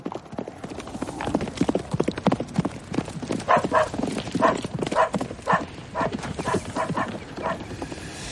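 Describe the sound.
Horse hooves gallop away in a fast, driving clip-clop rhythm, many loud hoof beats following in quick succession throughout.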